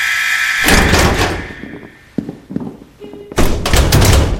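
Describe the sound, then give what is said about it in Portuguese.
A door opens with several heavy thunks and a sharp thud, followed by a loud burst of rushing noise. “O cronômetro zera e a porta se abre.”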